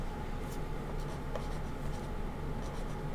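Writing on paper during a tabletop role-playing game: a steady, continuous scratching rustle of a pen or pencil moving across the page, holding an even level throughout with no voices.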